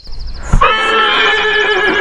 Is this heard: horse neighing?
yes